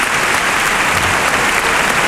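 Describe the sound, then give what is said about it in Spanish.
At a bullfight, the crowd gives a bullfighter an ovation: loud, continuous applause from many hands, a thick, steady roar of clapping with no break. “Agradece la ovación del público.”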